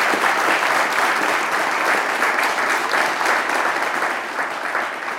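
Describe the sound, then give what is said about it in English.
Sustained applause from a crowd: dense, steady clapping that fills the whole stretch, easing slightly in loudness toward the end. “I gotta give a round of applause just for your friends.”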